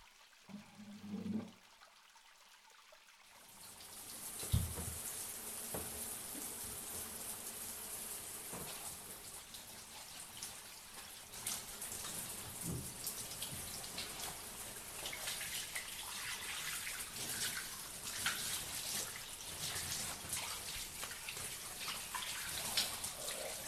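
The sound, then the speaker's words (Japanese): Water pours and splashes steadily as someone rinses their body before getting into a bath. A continuous, broad rushing sound starts after a brief quiet opening and runs without pause to the end. “お体を軽くお流ししてからお風呂へ入りましょう。”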